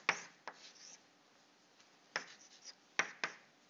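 Writing on a board: a few short, scratchy strokes in two clusters separated by a quiet gap, fairly faint, with no talk.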